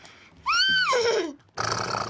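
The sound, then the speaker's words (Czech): A child's voice imitates a horse's neigh: one loud, quavering whinny rises, holds, then slides low, followed by a breathy, noisy snort-like burst. “Já udělám koně.”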